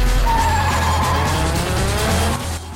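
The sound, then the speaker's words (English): A Mitsubishi Evo and a VeilSide Mazda RX-7 race head-to-head on a mountain road. Engines rev hard and loud, with squealing tires over a steady roar that eases off slightly at the very end. “the mountain road, Sean's Mitsubishi Evo is in a head-to-head with Han in his veil-side Mazda RX-7. Han manages to keep in front of Sean, but the youngster slips in on the inside at a left-hand turn.”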